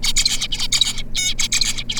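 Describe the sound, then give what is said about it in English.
An adult finch, serving as a tutor to young birds, sings its song alone: rapid, buzzy, high-pitched syllables in a tight rhythmic motif that repeats, loud and clear against a quiet background. “A few weeks into life, they start learning from the grown finch they're paired with, known as a tutor. Here's what they're trying to mimic.”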